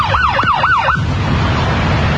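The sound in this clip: A police car siren signals a car to pull over: three quick rising-and-falling wails in the first second, then the siren cuts off, leaving a low road and engine rumble.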